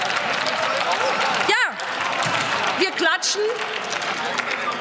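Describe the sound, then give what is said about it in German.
Audience clapping during a German political debate, a steady patter of applause running beneath a speaker who keeps talking over it. “Wenn Sie jetzt bitte mal klatschen, weil”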